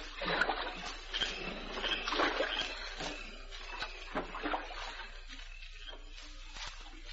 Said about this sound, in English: Start paddling